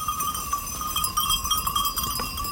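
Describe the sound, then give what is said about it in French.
A herd of Chamoisée Alpine goats moves about, heard mainly as many irregular clanks and jingles from their bells, steady and continuous. “rappelez-moi la marque de vos chèvres. C'est des alpines chamoisées.”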